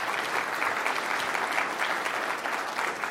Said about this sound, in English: Hand again for Kevin.